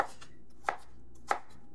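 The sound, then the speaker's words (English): Food is being minced with a knife: three crisp chops land evenly, roughly two-thirds of a second apart. Each is sharp and distinct over a quiet background. “Here, though, I'm going to give it just a nice, good mincing.”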